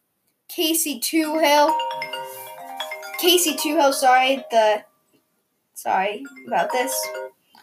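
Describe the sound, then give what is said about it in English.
A phone ringtone plays a melodic run of chiming tones, overlapping with a person talking. Speech continues after the ringing stops. “sorry about that. Phone ringing. That's my bad.”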